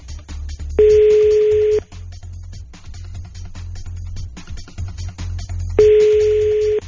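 Telephone tones sound while a call to someone's mother is being placed: two long, steady beeps about five seconds apart over a low background hum.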